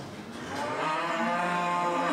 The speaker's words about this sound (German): wir kriegen wieder neue niedertragende Rinder. Ja, die sind natürlich aufgeregt. Die kennen ja die Situation nicht wirklich und schreien natürlich im Moment.